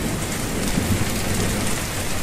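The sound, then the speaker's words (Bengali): Sudden rain pours down on the way to college. Drops strike surfaces in a dense, constant hiss, with a low rumble underneath, and the sound stays steady throughout. “একদিন কলেজে আসার পথে হঠাৎ বৃষ্টি শুরু হল।”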